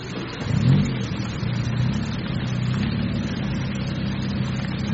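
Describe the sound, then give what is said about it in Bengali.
A private car's engine approaching, heard as a continuous low rumbling hum with a brief swell early on, then holding steady throughout. “ক্রমশ যেন এগিয়ে আসছে। Private car”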